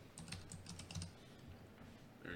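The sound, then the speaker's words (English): Fingers type on a computer keyboard, producing many quick, faint clicking keystrokes in an uneven rhythm. “Just type in Rodney.”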